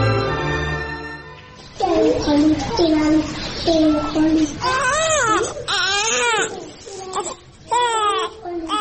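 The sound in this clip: An infant cries for milk in loud, sustained wails that rise and fall in pitch, broken into repeated sobbing bursts of crying.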